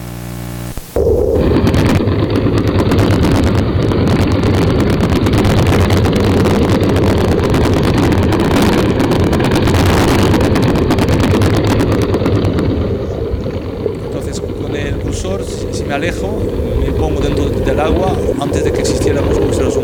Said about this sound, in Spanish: vamos a coger, para empezar, un barco razonable, un pesquero.